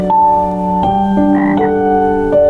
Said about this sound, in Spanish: A la mañana siguiente, más de 10 sapos se juntaron a escuchar su sueño.